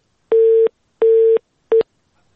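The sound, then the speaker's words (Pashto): Busy tone after a dropped phone call: three loud, steady single-pitch beeps with even gaps, the last one cut short, heard alone. “فکر کوم د دې اړیکې هم پرېښو چې تخنیکی ستونزه ده.”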